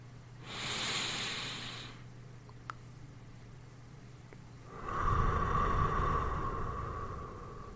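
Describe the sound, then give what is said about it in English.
Slow breathing in a relaxation exercise, with a long airy breath out through the mouth. Two drawn-out, hissing breaths are heard alone without talk, the second fuller and lower. “Breathe out through the mouth. 2 seconds when exhaling.”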